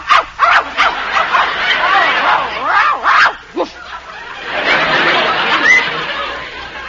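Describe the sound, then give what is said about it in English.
A dog barks and yips in several short, sharp, high-pitched bursts, with a few louder barks standing out among quieter, rougher sounds. “It's a dog. She's got a dog in there.”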